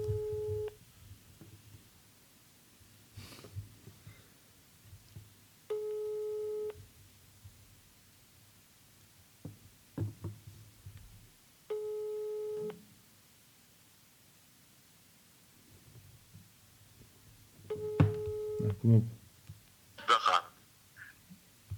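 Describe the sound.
A telephone ringback tone plays while a call is placed: four evenly spaced, steady tonal rings separated by long silent pauses, with voices and other sounds toward the end.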